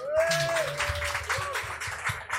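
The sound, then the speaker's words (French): Applause from an audience welcoming performers onto a stage, dense clapping that holds steady at a moderate level for the whole stretch. “je vous demande s'il vous plaît un tonnerre d'applaudissements”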